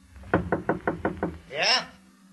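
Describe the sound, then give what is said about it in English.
Six sharp, evenly spaced knocks on a hotel room door, followed by a brief raised voice calling out. “I went down the hall and knocked at the door of 708.”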